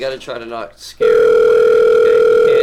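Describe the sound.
A steady telephone dial tone sounds while a call is being placed. It is a loud, unbroken hum that cuts in abruptly after about a second of talking and holds level to the end.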